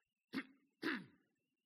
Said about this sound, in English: I have a chronic cough, so you don't have to worry about me.